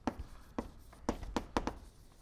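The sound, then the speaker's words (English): Writing on a board during a physics lecture: faint, short scratching strokes in an irregular run, separated by quiet pauses, with no talk. “But that's actually getting at a crucial thing that this, maybe I'll write it up there.”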